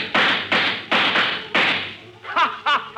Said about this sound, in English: Oh, you want to shoot it out, huh? Well, take that.